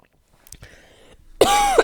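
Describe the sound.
A person coughs lightly and rasps, then gives a loud, drawn-out, voiced throat clear at the end. No words are spoken.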